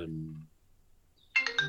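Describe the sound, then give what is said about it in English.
A telephone rings with a short burst of bright, trilling electronic chirps at the end, after a low voice fades into near silence. “I have phones ringing”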